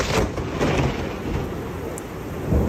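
Hailstorm during a cloudburst in Zeeland, Netherlands, after a long dry spell: a dense, steady roar of falling hail and rain with low rumbling underneath, continuous and fairly loud, without voices.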